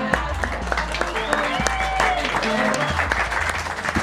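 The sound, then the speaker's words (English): Audience clapping and cheering at a live science comedy show at Fringe World Perth 2021 as a research assistant is called to the stage, a busy round of applause over a low, throbbing bass line. “Give it up for Nuala.”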